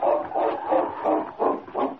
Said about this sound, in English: with a yelp of satisfaction, the great dog started out along the cross trail.